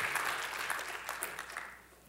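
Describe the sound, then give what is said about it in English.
Faint applause from an audience in a church sanctuary: a brief patter of clapping that tapers off quickly and grows quieter toward the end. “You can give them an applause.”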